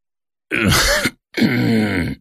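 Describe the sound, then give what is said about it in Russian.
An old man groaning and grunting as he rubs his eyes: two low, drawn-out, strained vocal groans, each close to a second long, with a short gap between them. “Закряхтел в это время старик Яничек, протирая глаза.”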